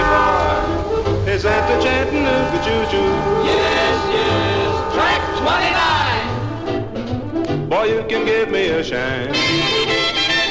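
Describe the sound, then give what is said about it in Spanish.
A train sound effect for a fantasy train carriage in a children's story, with loud, sustained horn-like tones and shifting pitch sweeps running steadily through the whole stretch. “¡Cuidado, que saltamos charco! ¡Dios mío! ¡Este tren está volando!”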